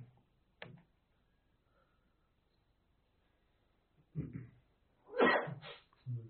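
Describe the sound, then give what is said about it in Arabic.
A single loud, sharp sneeze bursts out during a quiet religious lesson on Quranic commentary, with a few fainter short sounds before and after it. “يرحمك الله.”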